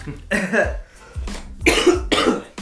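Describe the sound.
A few harsh, rasping coughs from a dry throat come in quick succession, loud and close together with short gaps between them.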